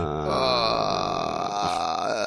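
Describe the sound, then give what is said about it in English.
A person's drawn-out, low voiced groan, rough and continuous for about two seconds, heard alone. “I'm just gonna groan this whole episode.”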